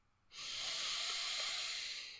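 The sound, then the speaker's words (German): A single slow inhale through the nose during a guided breathing exercise. It starts abruptly and becomes a steady, airy hiss lasting about two seconds, then tapers off gently at the end. The sound is quiet and stands alone, without voices. “Nochmal einatmen durch die Nase.”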